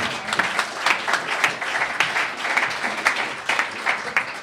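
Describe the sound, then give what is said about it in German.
Audience applause at a live stage show as volunteers are called up to a table: dense, steady clapping that stays loud throughout, with small surges in the crowd rather than separate claps. “Applaus, meine Damen und Herren.”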